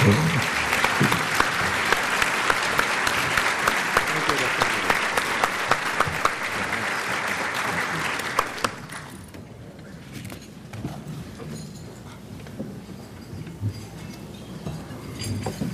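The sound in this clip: Loud, sustained audience applause welcomes Prince Turki Al-Faisal, dense clapping for about nine seconds before dropping to quieter scattered claps and room noise.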